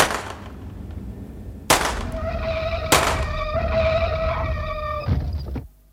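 Gunshots fired at a fleeing car's tyres during a chase in a radio drama: a few sharp, loud cracks break through a sustained tonal whine and rumble that fades away near the end.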